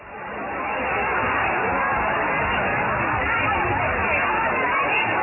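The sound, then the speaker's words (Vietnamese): Dense crowd hubbub as people climb over the spiked fence of Ho Tay water park. Many voices blur into a continuous, muffled babble that swells during the first second and then stays loud and steady. “Đây là âm thanh trong một đoạn video ghi lại cảnh tượng người ta trèo qua hàng rào nhọn hoắt của công viên nước Hồ Tây hôm 19 tháng 4.”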